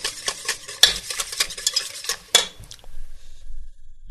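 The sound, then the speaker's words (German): Stirring of a creamy sauce in a pan: a quick run of scraping and clinking utensil strokes against the pan, then a softer, quieter stretch with low bubbling. No talking. “Ne, dabei immer umrühren ist wichtig.”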